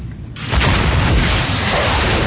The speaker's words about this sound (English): Weapons authorized. Prepare to fire. On my count. 5, 4, 3, 2, 1. Missile away.